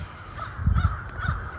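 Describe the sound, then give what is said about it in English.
Crows caw outdoors during a walk, a few harsh, raspy calls in quick succession over steady background noise, with no talk. “I'm on a walk if you hear all the crows.”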